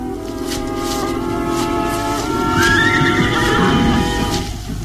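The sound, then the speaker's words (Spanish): Loud horse whinnying from a team of horses hitched to a rustic cart; a drawn-out neigh rises and falls midway over a steady low rumble. “rumbo al sitio donde el pequeño Solín hábilmente ha enganchado los caballos a una rústica carretela.”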